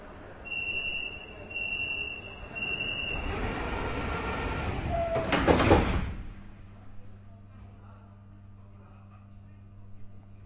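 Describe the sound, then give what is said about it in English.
A metro train arrives at Olympic Sports Center Station and its doors slide. Tonal chimes come first, then a rushing, sliding swell peaks and cuts off at about six seconds, leaving a low steady hum. “We are arriving at the Olympic Sports Center Station.”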